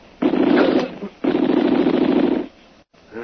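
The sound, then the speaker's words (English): Machine gun fire from guns positioned up above: two long bursts of dense, rapid rattling, the second longer than the first, separated by a short lull, with a faint sound after a brief gap. “Hear bullet sing. Well, I'll say it was close. Just be careful now and keep pulling the cover. Well, there's one thing we found out. We've got machine guns up there.”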